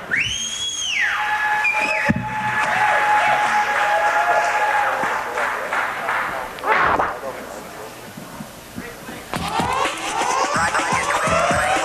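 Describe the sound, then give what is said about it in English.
A crowd applauds and cheers for a rap group's opening performance, with whistles rising above steady clapping and a voice speaking over the noise. “put your hands together for the Epicenter. Come on, guys, give it up.”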